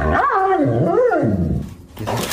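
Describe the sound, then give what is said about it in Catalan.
A dog whines and yowls in a continuous run of wavering tones that rise and fall, lasting about two seconds and fairly loud. “És el seu gos.”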